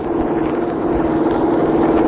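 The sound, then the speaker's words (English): A car engine drones in a steady, loud, even hum while driving, with a constant low tone and no talk over it. “Must have had cars in old Egypt, eh? Yeah, it looks that way. She drives well.”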